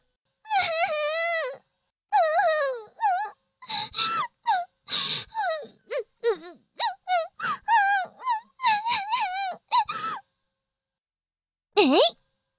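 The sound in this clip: Fake crying in an exaggerated, wailing voice: a long drawn-out wail opens, followed by many short sobbing and whimpering bursts with wavering pitch, a pause, and one final brief wail near the end.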